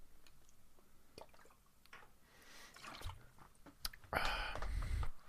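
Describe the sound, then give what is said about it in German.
Gulping down a drink of orange cola: faint wet clicks and small swallows, then a louder burst of gurgling gulps near the end, with no talking. “Alter Schluckspecht. Ja. Wieder äh, sündige äh, Cola Orange getrunken.”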